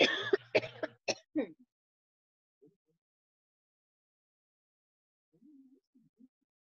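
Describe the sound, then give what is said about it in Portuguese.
After choking on a drink, a person lets out a quick burst of several harsh coughs, then falls almost silent apart from a few faint throat sounds near the end. “Engasguei muito.”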